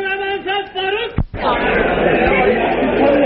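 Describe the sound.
A crowd shouts 'Allahu Akbar' in reply to a takbeer call. One strong raised voice comes first, then the massed voices answer in a loud, dense roar that holds to the end.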